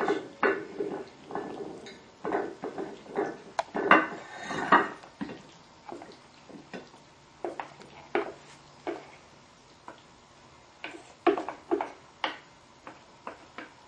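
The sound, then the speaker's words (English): Utensils clinking and scraping against a dish as pasta salad tossed with olive oil is served. Many light, irregular taps and knocks, fairly quiet, with no talk. “It's ready. I'm just gonna serve it to the dish.”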